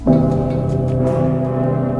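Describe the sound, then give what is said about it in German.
Deep, sustained ringing of the large church bell of Cologne Cathedral, a steady humming tone with many layered overtones that holds at an even, loud level for the full two seconds. “Der dicke Pitter, eine der weltbekanntesten Kirchenglocken der Welt in einer der weltbekanntesten Kirchen der Welt im Kölner Dom”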